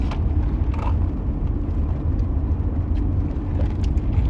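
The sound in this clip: Steady low rumble of a car driving around town, with engine and road noise holding constant throughout. No voices are heard.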